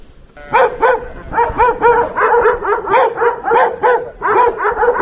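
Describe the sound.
Taigan hunting dogs barking at a kennel in a mountain village: a loud, rapid stream of many barks and yips, with a steady rhythm and no real pause.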